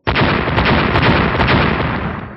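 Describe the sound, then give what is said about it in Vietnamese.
Explosion of several mini stars bursting one after another: a sudden, loud, dense blast that roars steadily for about two seconds and tapers off slightly at the end. “8 viên tinh cầu mini khác liên tiếp vỡ ra, khi chúng đạt tới cực hạn đã đồng loạt nổ ra”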